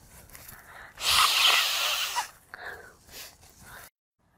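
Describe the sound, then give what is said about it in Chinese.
A man with a cold blowing his nose: one long, loud, rough honking blow, then a few softer, shorter snuffling bursts, with no talk. “他在擤鼻涕”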